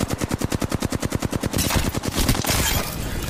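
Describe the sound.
A Flatline assault rifle in the Apex Legends video game, Mixtape mode, fires a rapid automatic burst of sharp, even shots. The shots then blur into a dense, loud wash of continued gunfire.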